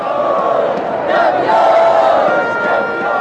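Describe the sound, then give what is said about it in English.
Soccer fans at Lisbon airport cheering and chanting to welcome home Portugal's men's national team after its European championship win: a loud, continuous crowd roar that swells slightly midway. “They're celebrating in Portugal today.”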